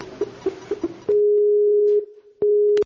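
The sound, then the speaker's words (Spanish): Ringing tone of an outgoing Skype call: a steady mid-pitched electronic tone. A few short blips come first, then two long sustained tones with a brief pause between them, with no voices. “haremos una llamada a través de Skype a dos compañeros del curso”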